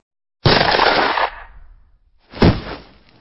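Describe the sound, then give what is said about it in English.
Two loud gunshots from a gun: a first blast with a long decaying tail, then a second shot after a pause, with no voices. “Oh, my God. That was a real gun.”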